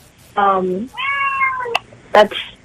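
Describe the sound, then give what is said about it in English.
A cat meows a few times in drawn-out, strongly harmonic cries, fairly loud, with short pauses between calls. “was that a cat or a little brother and sister, or a brother or sister I just heard? It was a cat. Oh, was it the cat? Yes, that was a cat.”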